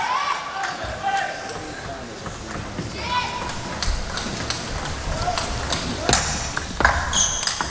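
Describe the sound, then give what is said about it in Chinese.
Table tennis ball clicks during a serve and attacking rally in a match, many sharp, light taps at an irregular pace, heard under ongoing commentary from people talking. “发球抢攻， 好球。”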